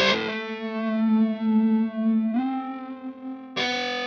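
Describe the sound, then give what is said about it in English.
An electric guitar played through an Old Blood Noise Endeavors Visitor effects pedal holds long, distorted, chorus-thick notes. A sustained note shifts slightly higher midway, and a fresh bright note is struck near the end. “Is it another Old Blood? This is the Old Blood Noise Endeavor's Visitor.”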